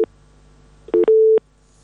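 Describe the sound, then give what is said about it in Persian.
Telephone busy tone after a dropped call-in line connection: a few short, low electronic beeps followed by one longer steady tone, heard alone without voices. “خب تماس اونا قطع شده، میریم سراغ تماس دیگی.”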